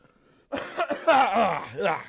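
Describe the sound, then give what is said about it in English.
Throat clearing: several rough, harsh voiced bursts of a person clearing their throat, loud and with no talk over them. “Sorry. Strong stuff. Had to clear my throat for this morning.”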